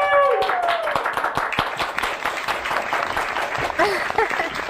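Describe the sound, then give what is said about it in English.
Applause from a played studio audience recording, a dense, steady wash of many clapping hands running throughout at even loudness, with a voice briefly audible at the start. “Big hand.”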